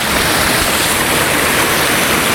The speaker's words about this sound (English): rain and all the melting, it's a little bit more torrential than normal, and so little bits of waterfall have formed.